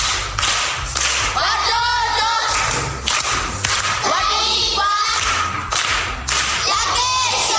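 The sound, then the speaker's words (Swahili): Group applause in a primary school quiz session, loud patterned clapping in a repeating beat with voices chanting along over it. “Makofi kwa shangazi.”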